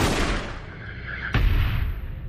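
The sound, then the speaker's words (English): A single diversion gunshot fired toward a cliff cracks sharply partway through, leaving a low booming tail that fades out. “The diversion gunshot towards the cliff signals the go-ahead.”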